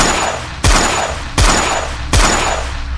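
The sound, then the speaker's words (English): Three loud gunshots fired at an alien Pleiadian body, evenly spaced, each a sharp crack trailing into a long booming decay. “He's a shooting at 666's Pleiadian body. You dolthead! Those shots will never hurt me in my Pleiadian form.”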